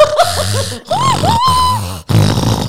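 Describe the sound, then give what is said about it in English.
A voice imitates the heavy, heaving snort of a massive creature with a large snout: a few rough, throaty bursts with gliding, groaning tones, loud and alone. “it wasn't normal, heavy breathing. It was this heaving snort, like some massive thing with a large snout was out there.”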